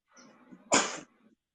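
A single loud, sharp human sneeze bursts out after a moment of faint low breathing, then trails off quickly into quiet.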